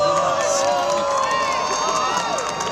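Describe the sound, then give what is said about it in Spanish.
Crowd of spectators cheering and clapping just before totality of a total solar eclipse, a steady, loud wash of overlapping voices, whoops and applause that holds at an even level throughout the short stretch. “Segundos antes de la totalidad, los asistentes celebraron el momento previo con expectación y aplausos”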